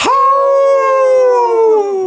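A wolf gives one long, loud howl on its own. The pitch rises quickly at the start, holds steady for about two seconds, then dips slightly at the end.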